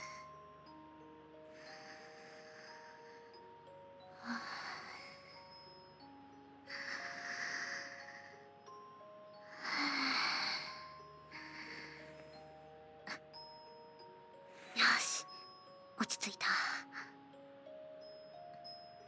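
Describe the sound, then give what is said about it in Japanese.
Slow, deep calming breaths taken by a nervous woman, a few soft airy inhales and exhales spaced several seconds apart over faint background music. “落ち着け、私。深呼吸、深呼吸。”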